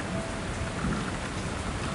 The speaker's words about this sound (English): hate it when it rains. The feeling of the air makes my skin crawl, and the pitter-pattering of the little droplets pound in my ears.